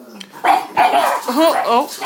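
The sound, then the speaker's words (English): Several dogs barking excitedly, giving a few loud, harmonic barks and yelps in quick succession over about two seconds. “Sorry, guys, dogs are off. I think they've seen a cat.”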